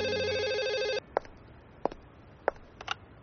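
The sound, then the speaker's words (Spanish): A hotel telephone rings for an incoming call put through by the operator: one steady, buzzing electronic ring lasting about a second, then several faint, sharp clicks. “Al regresar al hotel, la operadora del presidente Chapultepec me dio paso a una llamada que no olvidaré jamás.”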